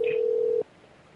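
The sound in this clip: A single steady telephone tone sounds as a call is dialed, holding an even pitch for just over half a second before cutting off sharply into quiet.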